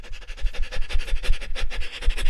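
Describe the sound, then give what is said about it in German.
Rapid, shallow panting breaths from a person doing a high-rate breathing exercise, many quick in-and-out puffs in a steady rhythm, moderately loud with no talk. “Kommen wir jetzt zum dritten Atemweg und das ist die Hechelatmung. Das heißt, wir versuchen jetzt auf einer sehr hohen Frequenz ein- und auszuatmen.”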